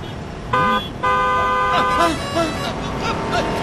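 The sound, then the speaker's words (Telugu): Car horn honking at a pedestrian from a slowly moving car: a short blast, then a longer sustained honk, followed by voices talking. “Horn కొట్టినా మీకు వినిపించడం లేదు.”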